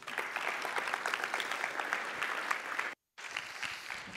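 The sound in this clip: A church audience applauding as a speaker is welcomed to the platform at a Sunday service: steady, dense clapping that drops out briefly near the end and then resumes.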